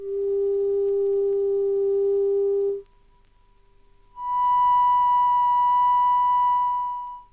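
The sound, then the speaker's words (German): Two clean electronic sine tones sound one after the other. A steady lower tone lasts nearly three seconds, then after a silence of over a second a higher, brighter tone holds for about three seconds, both even and sustained. “Sie hören jetzt zwei Töne.”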